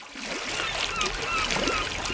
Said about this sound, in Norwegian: jeg fant frem sommerlydene her ettersett. Bølgeskvulp og måkeskrik og humlesur.